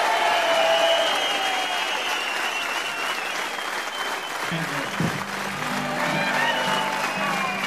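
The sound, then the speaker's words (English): An audience applauds as a band returns to the stage, with dense, steady clapping that holds loud throughout the whole stretch. “Come on, give them a big welcome back on stage.”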